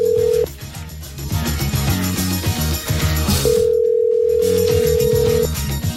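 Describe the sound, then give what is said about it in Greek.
Viber call ringing: a sustained mid-pitched tone sounds briefly at the start and again for a couple of seconds later, over a rhythmic melodic backing. “Call. Free Viber call.”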